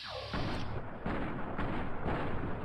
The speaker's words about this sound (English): RoboBrain Mark III, to be slightly more specific, and we're gonna shoot at his head